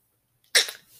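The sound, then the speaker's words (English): A single short, sharp sneeze bursts out of near silence, followed by a brief breathy tail that quickly fades away. “I feel like I need to sneeze and cough and pee at the same time.”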